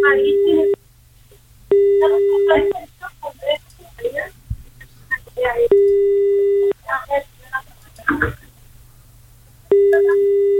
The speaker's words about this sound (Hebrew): אפשר להתקשר? בשמחה. הנה, מחייגים.